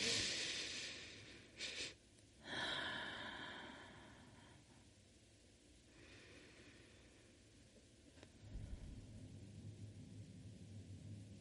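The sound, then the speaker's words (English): A very big deep breath during a guided breathing exercise, heard as breathy bursts in the first few seconds, followed by a quiet low rumble. “take a very big breath with me”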